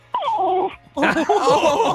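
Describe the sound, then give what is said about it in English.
A puppy whines in the background, complaining while its owner is on the phone. High, wavering whimpers come in two bursts, a short one and then a longer, busier run of yelping whines. “what is going on behind the scenes there? Is that a puppy?”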